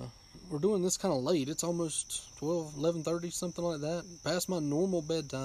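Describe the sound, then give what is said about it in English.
Crickets and tree frogs calling outdoors at night after a spell of heavy rain, heard as a continuous thin, high, steady insect trill running faintly beneath close conversational speech throughout. “Yeah, I'm sure you can hear the crickets and the tree frogs and stuff.”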